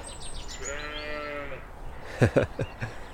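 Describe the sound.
Sheep and young lambs of two or three weeks bleat as the lambs feed from their mothers: one drawn-out, wavering bleat, then a few shorter, sharper calls.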